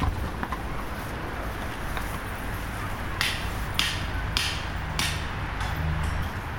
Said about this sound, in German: So hört sich das an, wenn die Paddocks aufgebaut werden. Die einen haben welche, die man einfach so in die Wiese reinpieken kann. Manche brauchen den Hammer und dann wird der Zaun gespannt.